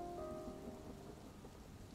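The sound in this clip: Heavy rain pours down as a dense, even hiss that stays steady and fairly quiet throughout, with no talk.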